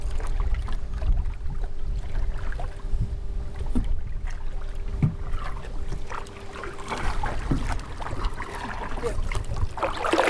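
Oars row a small boat on water, with steady washing and splashing under constant wind noise. A faint, steady hum runs through most of it.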